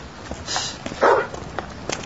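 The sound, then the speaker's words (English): A dog, one that seems to be a lost stray, gives a single short bark over faint scuffling background noise. “I've seen this dog around here before. I think he's lost.”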